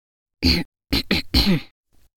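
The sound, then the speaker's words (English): A performed throat clearing by someone sitting at a kitchen table, a few short rough bursts ending in a longer one, then silence and a faint final rasp. “Then I cleared my throat.”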